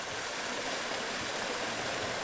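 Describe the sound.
Flowing water of the Erft river, a tributary of the Rhine, heard as a steady, dense rushing wash that stays even and unbroken throughout, with no voices.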